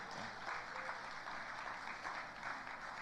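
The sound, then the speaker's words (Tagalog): Applause from an audience greeting a guest at a church gathering. It is faint, steady and dense, with no voices standing out. “Palakpakan naman natin si Nanay.”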